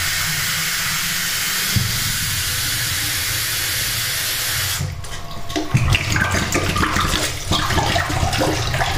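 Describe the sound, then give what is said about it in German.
Running water rinses out a bottle, a steady loud rushing hiss that turns splashier and more irregular about halfway through, with uneven gurgling bursts and no voices. “Dritte Flasche. Das ist jetzt die, die ich mitnehme. Nochmal rausspülen kurz.”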